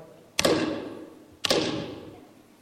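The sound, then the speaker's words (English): Two heavy, booming knocks on a door, evenly spaced, each with a sharp attack and a long ringing decay, alone with no talk. “who's knocking on my door? Who's interrupting my party?”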